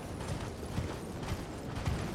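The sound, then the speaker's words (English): Horse hooves clip-clopping in a video game: a steady, soft run of muffled thuds roughly every half second, set in a constant, noisy background hiss. “So you can just get on your horse and ride over here to the door.”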